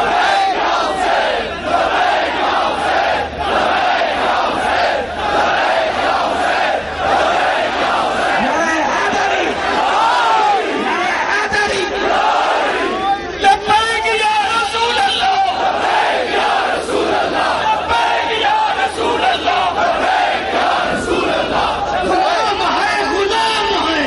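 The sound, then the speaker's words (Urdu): Crowd at a religious rally chanting slogans in loud unison, massed voices roaring back in call-and-response bursts that stay loud and sustained across the whole stretch, with a leader's voice rising between the shouts. “نعرے لگائیں گے, لبے کیا رہے اسے ہم نے جواب دینا, نعرہ تکبیر اللہ, نعرہ رسالت یا رسول اللہ, نعرہ رسالت یا رسول اللہ”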